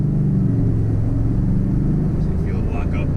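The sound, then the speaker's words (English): Car engine on a tuned car under an ordinary throttle squeeze, a loud, steady low rumble with droning tonal bands that holds at an even level throughout. “I mean, that's just an average squeeze in the throttle, and right there, 60.”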